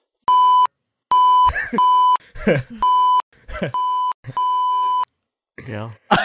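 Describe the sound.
Six flat, high electronic censor bleeps of varying length cover a spoken phone number. Short bursts of talking voices fall between them.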